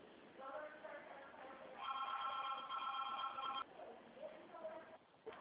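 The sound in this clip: A telephone rings with a steady electronic ring tone lasting about two seconds, faint and heard through a phone line, with a voice talking before and after it.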